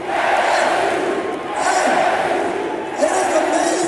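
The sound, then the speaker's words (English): A roaring crowd of basketball fans storms the court after a game, a continuous loud wash of shouting and cheering that swells and eases slightly in waves without ever dropping away. “He's got the mic. Crowd is crazy on the court. Players are climbing up around him.”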